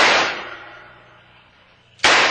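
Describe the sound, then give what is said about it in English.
Gunshots: a loud, sharp blast with a long fading tail, then a second abrupt blast about two seconds later. “Alto! Alto, I shoot!”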